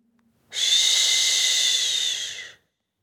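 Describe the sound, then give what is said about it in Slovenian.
A voice makes a sustained "sh" sound, a loud, steady hiss lasting about two seconds that starts abruptly and fades out quickly, with silence around it. “Zdaj pa še glas Š. Vdih in”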